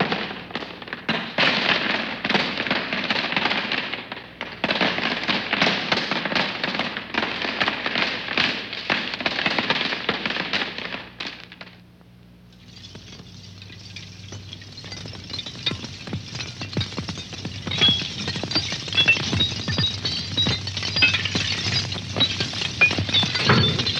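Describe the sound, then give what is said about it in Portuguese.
Falling stones and a crackling fire: a long stretch of dense, steady clattering stops for a short lull, then gives way to continuous crackling and popping. “Queda de pedras, crepitar de um fogo. Estas são feituras contínuas ou acumulativas, segundo o ouvido de quem as escuta.”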